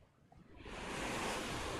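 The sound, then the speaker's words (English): Rough open-ocean water swelling into a broad, hissing wash of surf as the sea turns choppy with storms on the horizon, rising from near quiet to a loud, steady roar within a second. “You notice that the water starts to get a bit rough.”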